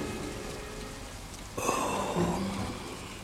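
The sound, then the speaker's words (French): Raindrops patter on a zinc roof in a steady, dense wash of small taps. The sound grows slightly fuller partway through. “On entendait des gouttes de pluie sur le zinc.”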